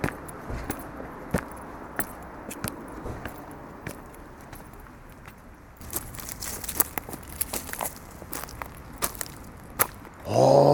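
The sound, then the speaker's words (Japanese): Crunching footsteps on a forest path strewn with pine cones and acorns, with many irregular sharp cracks and snaps, and a louder crunching burst right at the end. “少し登ってきたところにこんもりとした森がありまして、で今ねそのところ踏みしめて歩いてたんですけど、松ぼっくりの数がすごいのと、どんぐりがすごいね。”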